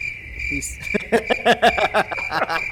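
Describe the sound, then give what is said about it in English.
Cricket chirping sound effect: a steady high-pitched trill with a run of quick pulsing chirps, while a voice talks over it. “I appreciate the use of the crickets.”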